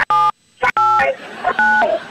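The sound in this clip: Telephone keypad tones sound as number keys are pressed: three short, loud electronic beeps in quick succession, each a slightly different pitch.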